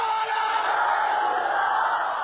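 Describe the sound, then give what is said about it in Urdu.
A crowd chanting the Nara-e-Risalat slogan together, a loud, sustained roar of many voices in unison that holds steady for the whole stretch. “زور سے بولو نعرہ رسالت، کسی ایک آدمی کی زبان خاموش نہیں رہنی چاہیے، زور سے بولو نعرہ”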